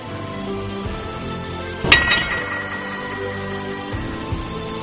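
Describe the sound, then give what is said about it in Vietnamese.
A sword tossed down hits the ground with a single sharp metallic clink and a brief ring, set against a steady soft musical backdrop. “Nàng lấy một thanh kiếm từ trong khư đỉnh ra, ném trước mặt Bạch Tử Họa.”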